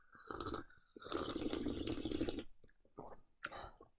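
Slurping of a sweet drink while air is drawn in with it: a short airy slurp, then a long, noisy, wet pull, followed by a few brief sips.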